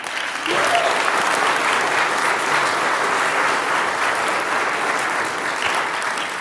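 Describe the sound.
Audience applause welcomes a speaker, a dense, sustained clapping that holds at a steady level from start to finish.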